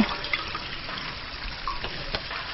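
Water swishes steadily as someone uses it to wipe mud off another person's shoulder. It makes a continuous, fairly soft wet hiss with small splashes, and no one speaks.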